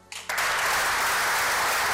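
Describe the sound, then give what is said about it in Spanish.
A football squad breaks into dense, steady applause, many hands clapping together at a constant loud level after a quieter start, for a teammate retiring from the club. “con estos aplausos del resto de la plantilla hacia Raúl García”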